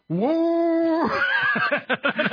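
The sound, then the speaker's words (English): A voice imitates a four-barrel carburetor roaring as the gas is stomped: a rising tone that holds for about a second, then breaks into a choppy run of short sputtering bursts. “that thing had a four-barrel carburetor on it, and when you'd step on the gas, it would go,”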